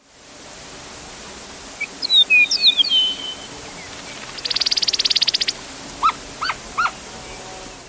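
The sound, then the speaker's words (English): Eastern Meadowlark song: clear, slurred whistled phrases, then a buzzy trill and three short whistled notes, all over a steady background hiss. “That's the sound of the Eastern Meadowlark, one of Jonathan Franzen's favorite birds, recorded in”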